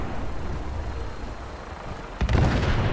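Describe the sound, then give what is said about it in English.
An explosion goes off in a video game, a sudden loud burst about two-thirds of the way in that breaks over a steady rumbling background and leaves a dense roar behind it. “What is exploding over here?”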